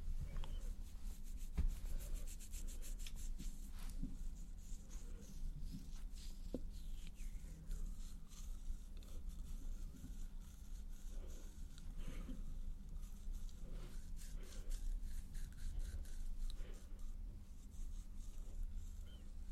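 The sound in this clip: Soft, gritty rubbing of a castor sugar and essential-oil lip scrub being worked onto the lips with a fingertip, a faint, continuous scratchy texture flecked with many tiny crackles, heard alone without talk.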